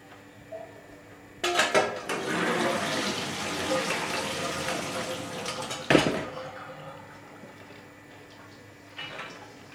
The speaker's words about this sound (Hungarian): És akkor leszűrjük, alaposan átmossuk. De a szűrőedénybe.